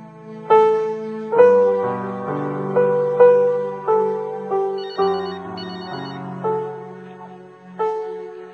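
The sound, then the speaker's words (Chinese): A telephone rings while someone is being called, playing a bright melodic ringtone. Many short electronic notes jump between pitches in a steady, repeating rhythm, and each note fades quickly before the next one. “我唔使再谂要唔要打电话俾阿雪，我终于都 call 佢”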